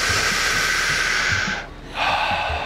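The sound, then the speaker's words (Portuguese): A deep breath is drawn in on a count during a breathing exercise: a long, airy, hissing inhalation, briefly broken by a short pause before the rush of air resumes. “três, dois, um, inspira”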